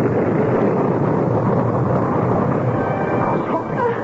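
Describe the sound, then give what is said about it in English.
Bomb explosion sound effect in a radio drama, a loud, dense rumbling roar that is already full at the start and stays sustained before easing slightly toward the end. “Then I saw it, a black object hurtling through the air. Look out! Sophie! Sophie! What is it? A bomb!”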